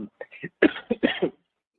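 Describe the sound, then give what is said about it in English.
Coughing from someone whose coffee went down the wrong way: a quick series of short, harsh coughs and throat-clearing bursts, then silence. “Coffee went down the wrong way.”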